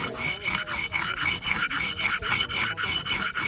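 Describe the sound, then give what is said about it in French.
Rasping, rhythmic grinding from a stone quern, a millstone for crushing grain into flour, comes as a steady run of many back-and-forth strokes of gritty stone rubbing, evenly paced and fairly loud, with no voices. “Donc ça c'est une meule pour écraser le grain et faire la farine, quoi.”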